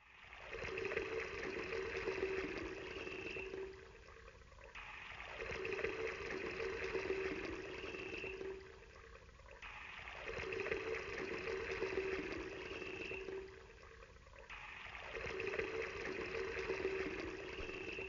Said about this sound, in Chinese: 现在浇4大桶水在肉和柴上。